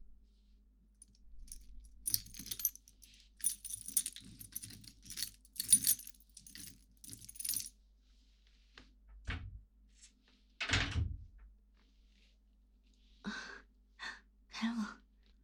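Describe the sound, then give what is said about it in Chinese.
A cabinet is opened: a stretch of light metallic rattling and jangling, then two heavier thumps from the door, and a few softer clicks and knocks afterward, all fairly faint. “没想到，学弟很有力气嘛，这么轻松就把柜子打开了，今天多亏你了。”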